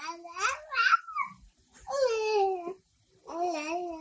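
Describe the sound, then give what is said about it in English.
Baby babbling, with strings of vowel and consonant sounds coming out in three voiced bursts of syllables. The sounds are separated by short pauses and are moderately loud, with no adult voice. “This means your baby started to make sounds that include both vowels and consonants. And this is what babbling sounds like.”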